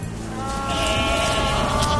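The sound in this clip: A goat bleats on a pasture, one loud, drawn-out wavering cry that holds steady for the whole moment without a break.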